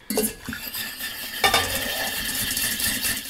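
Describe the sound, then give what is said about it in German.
Baking soda powder stirred briskly into an oil mixture for homemade deodorant, giving a steady scraping, swishing sound with occasional light clinks of a utensil against the container. “Also dieses Pülverchen, das kommt jetzt gleich rein in unser Ölgemisch und wird dann kräftig gerührt.”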